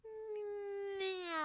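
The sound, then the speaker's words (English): A voice imitates the sound of flying across continents with one sustained, hummed "woo." It holds a smooth, steady tone whose pitch drifts slightly downward and grows brighter toward the end. “woo, that's the sound of us flying across the continents”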